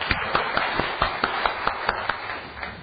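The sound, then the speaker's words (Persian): An audience claps in a quick, steady rhythm at a talk, with many sharp, evenly spaced beats standing out over a dense wash of hand claps. “اصفهان هدایه بهتر میشه گرفت از دست بزنید مرسی”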